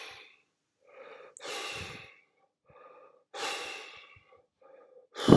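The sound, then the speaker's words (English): Heavy panting from a man walking up a hill: several loud, breathy huffs and sighs alternate with softer gasps in an uneven rhythm, with no talking. “That is the sound of Mr. Porky walking up the hill to Happy Joe's restaurant.”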